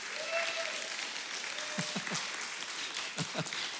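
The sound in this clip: Audience applause welcoming guests before a sermon, a dense, continuous patter of many hands clapping steadily throughout, with a few voices rising briefly over it.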